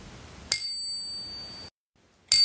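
Integrated bicycle bell on the handlebar, mounted between grip and brake lever, giving a bright, high metallic ding that rings and slowly decays, followed after a short silence by a second strike.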